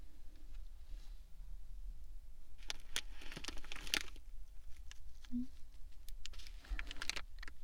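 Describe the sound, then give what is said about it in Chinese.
A packaging bag is torn open: soft crinkling rustles and several sharp tearing bursts, fairly quiet, clustered in the middle and again near the end. “现在把包装袋撕开。”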